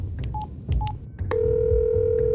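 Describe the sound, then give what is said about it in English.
Telephone keypad tones as a number is dialed: two short beeps with faint button clicks, then a single long, steady tone that holds to the end. “I dialed the number for him.”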